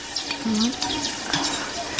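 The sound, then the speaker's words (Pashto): Onions frying in oil give a steady sizzle and crackle, fairly soft and even throughout. “غوړې خو یې ډېر نه دي خو زه وایم چې پیاز به پکې ډېر نه سوځو که څنګه.”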